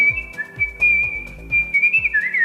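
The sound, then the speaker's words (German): Artistic whistling by a world-champion competition whistler: a clear, melodic whistled line with quick slides and ornaments, held notes and a wavering rise near the end, carried over a low, rhythmic accompaniment. “Das sind wir nämlich, nicht im Fußball, aber immerhin im Pfeifen. Das klingt so.”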